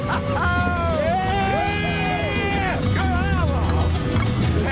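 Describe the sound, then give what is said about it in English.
A buffalo herd stampedes down a valley during a South Dakota roundup, a continuous low thundering rumble beneath loud whooping and cheering voices. “We could feel the rumble. Dust plumes follow the herd. The animals are like dark phantoms plowing through the fog. They run together, rolling, thundering down the valley.”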